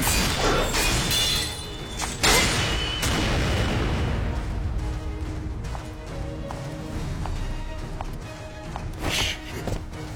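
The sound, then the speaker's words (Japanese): Crashing, shattering rock from a rock-blast magic spell cast at the start of a match: a few loud, explosive bursts of breaking debris over a continuous rumbling, gritty bed that softens midway before another burst near the end. “ロックブラスト。ロックブラスト、ロックブラスト。”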